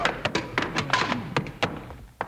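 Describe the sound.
A series of dull thunks and taps as a man is struck on the head and knocked out, several sharp knocks in quick, uneven succession with a final single thud, no voices.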